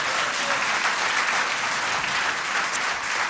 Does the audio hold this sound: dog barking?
no

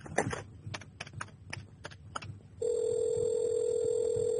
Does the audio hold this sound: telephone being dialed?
yes

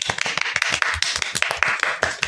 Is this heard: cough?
no

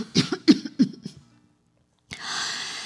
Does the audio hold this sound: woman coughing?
yes

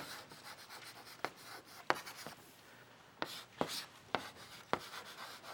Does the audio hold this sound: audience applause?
no

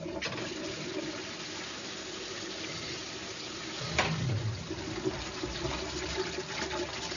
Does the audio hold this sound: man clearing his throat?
no

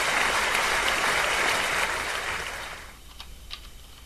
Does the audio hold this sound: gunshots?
no

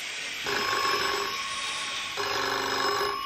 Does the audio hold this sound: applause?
no

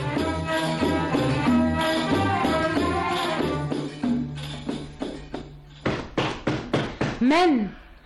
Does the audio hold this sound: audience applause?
no

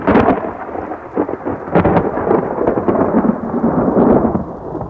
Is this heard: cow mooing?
no

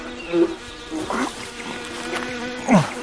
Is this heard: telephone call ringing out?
no

